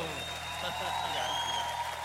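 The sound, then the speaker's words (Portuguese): Applause from an audience, a steady, fairly faint wash of clapping with voices mixed in throughout. “Uma salva de palmas”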